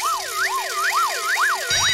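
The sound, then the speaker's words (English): A siren warning sound effect wails on its own, its pitch sweeping up and down in quick repeated cycles, loud and steady, with no voices. “And that warning sound tells us that our fiendishly difficult Happy Hour pop puzzle will be coming your way right after the next track.”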